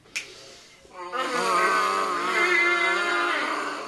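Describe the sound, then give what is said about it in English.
Lips buzzing into a brass instrument mouthpiece. After a brief click, a raspy, wavering buzz sustains for nearly three seconds with slightly unsteady pitch. “Good, now grab your mouthpiece and let's try buzzing”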